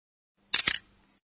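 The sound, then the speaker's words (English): A camera shutter clicks twice in quick succession, two sharp bright snaps followed by a faint fading tail, with nothing else around them. “That's the sound of a camera shutter, I think.”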